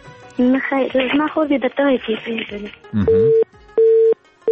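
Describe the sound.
After a disconnected call, talking gives way to a telephone busy tone: a steady, mid-pitched beep repeating in about three even pulses separated by short gaps.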